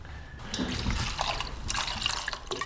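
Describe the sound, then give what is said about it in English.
Liquid poured into a gin bottle already holding coriander, a continuous, fairly loud splashing and gurgling pour with bright, trickling detail throughout and no talk. “So we're going to add another 70 mils, so about 10% of the overall liquid in the bottle.”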